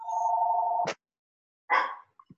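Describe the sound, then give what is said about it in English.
A mobile phone ringing: one steady mid-pitched ring tone sounds for under a second and cuts off with a click, followed by a short burst of sound and a couple of faint taps. “Sorry, I'm going to have to turn my phone off. My apologies.”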